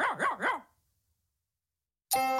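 Fox terrier barking: three quick, sharp barks in a rapid run, fairly loud, followed by silence.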